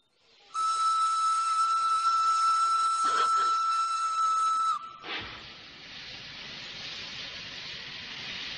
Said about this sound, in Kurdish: ئێستا شەمەندەفەرەکە دەڕوات